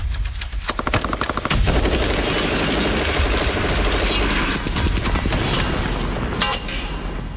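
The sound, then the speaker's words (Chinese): A QJB201 squad light machine gun fires rapid automatic bursts, a loud dense rattle of shots running almost continuously throughout with only brief dips in intensity. “QJB201 班用机枪便是战场环境下不可或缺的武器。”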